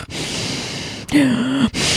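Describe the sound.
A voice imitates heavy breathing into a phone on speaker: a long, noisy, airy exhale, then a short voiced, groaning breath with a wavering tone, then another breath starts.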